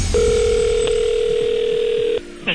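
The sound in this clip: A ringback tone sounds on an outgoing telephone call: a single steady, mid-pitched tone held for about two seconds, then it cuts off and a short burst follows.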